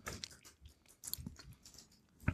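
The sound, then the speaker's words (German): Crunchy potato chips, a mouthful of three at once, being chewed: faint, repeated crisp crunches and soft mastication run steadily throughout with no talk. “ich habe ja vorher nur einen Chip probiert, das habe ich mal drei Stück genommen, auch um diesen Crunchy-Effekt zu haben”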